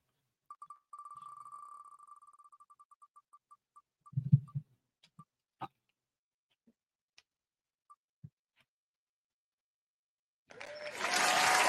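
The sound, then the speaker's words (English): A prize wheel being spun, its rapid clicking ticks slowing steadily into sparse, widely spaced clicks until it stops. A burst of loud applause follows. “So, May, will you do us the honors of spinning the wheel to see who our winner is for today?”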